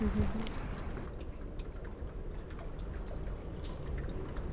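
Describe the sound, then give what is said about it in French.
Water drops drip steadily, many small taps over a continuous wash of water noise. “Ah, c'est des gouttes. Et en même temps, d'un point de vue sonore, c'est un peu comme si on avait trouvé une rivière.”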